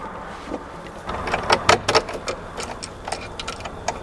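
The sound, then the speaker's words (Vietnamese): A key is tried in a door lock at an old fort near a church in Goliad, Texas, giving a few faint metallic clicks and rattles bunched in the middle, with no talking. “Thử lấy chìa khóa mở coi.”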